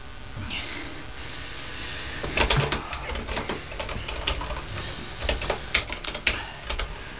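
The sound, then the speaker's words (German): Someone types a password on a computer keyboard, giving quick, irregular keystroke clicks in uneven bursts that begin a couple of seconds in over a quiet background. “Ich gebe das Kennwort ein.”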